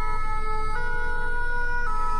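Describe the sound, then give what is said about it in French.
Fire engine sirens wail in a loud, steady stream of tones that shift between pitches twice, with no voices over them. “Vous avez évidemment reconnu des sirènes de pompiers.”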